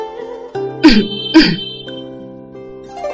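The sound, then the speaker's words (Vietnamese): A dry cough sounds twice in two short, sharp bursts close together, over a steady tonal background. “Gia Ảnh ho khan một tiếng”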